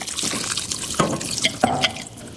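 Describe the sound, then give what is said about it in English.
Water is poured into a cooking pot, four cups added to a plant-based curry. The stream splashes and gurgles steadily, with a few louder splashes. “And now I'm going to add my 4 cups of water to this.”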